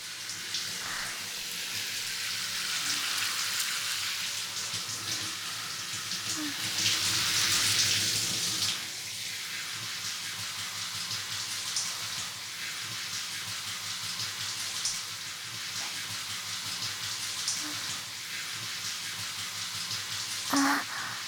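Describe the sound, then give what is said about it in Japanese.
Hot water is poured over slime, giving a steady splashing hiss that swells louder through the first part before settling into a softer, ongoing trickle. “お湯をかけていきまーす。”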